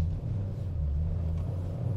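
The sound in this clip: Low, steady engine rumble from a manual-transmission car while it makes a U-turn, a continuous droning hum with no voices over it.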